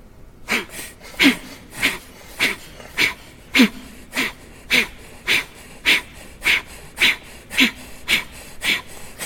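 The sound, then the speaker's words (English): Sharp, forceful exhales through the nose in a breathing exercise, many short puffs at an even, quick pace of about two per second, each one brief and clear. “it's a strong exhale through the nose, a sharp, strong exhale, and then a wait, because the inhale will just come. So just try a few.”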